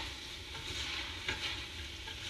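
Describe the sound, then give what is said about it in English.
Spices stirred into melted butter in a hot pan give off a faint, steady sizzle. A brief scrape of stirring sounds near the middle. “But once you add your spices, go ahead, stir those up.”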